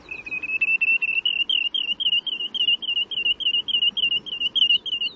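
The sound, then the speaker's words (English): Call of the ulili shorebird: a rapid, continuous series of high, whistled notes with an undulating, warbling quality, repeating steadily throughout over faint low background noise. “In Hawaiian, they're called ulili, and in Tahitian, uriri, both probably reflecting the undulating sound of their call.”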